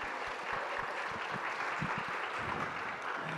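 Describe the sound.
A church audience in Japan gives faint, steady applause to welcome visiting guests from a Korean church, with many hands clapping evenly throughout.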